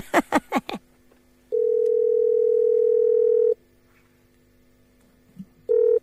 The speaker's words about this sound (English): punch in that second number for us